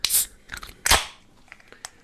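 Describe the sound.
A bottle of Bock beer is opened: a short hissing burst, then a sharp crack, followed by a few faint, brief clicks.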